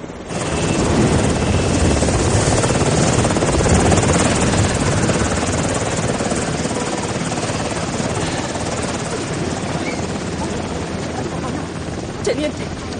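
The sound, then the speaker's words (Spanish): A helicopter landing at a border in a war-film scene. Its rotor and engine make a loud, continuous thrumming roar that holds steady throughout and eases a little toward the end. “Todos los refugiados los observan mientras un helicóptero aterriza al otro lado de la frontera.”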